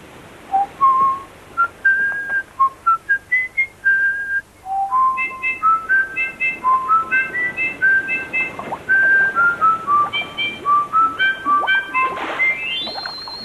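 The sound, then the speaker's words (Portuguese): Whistling presented as a whistling fish: a quick melodic run of many short, bright, pure notes that step up and down in pitch, loud and heard alone. “Um peixe que assobia.”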